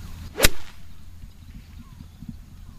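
A golf club strikes the ball on a tee shot on a golf course: one sharp, loud swishing crack, then quiet outdoor background.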